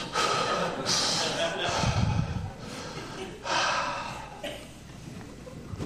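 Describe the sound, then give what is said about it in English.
Deep, slow breaths drawn in and let out during a guided relaxation, heard alone as airy, noisy rushes that swell and fade a few times. “Breathe in, breathe out.”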